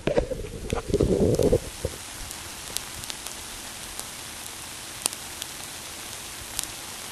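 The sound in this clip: Rain falls in a steady soft hiss dotted with scattered sharp drop taps, after a brief louder burst of rumbling noise at the start; no voices are heard.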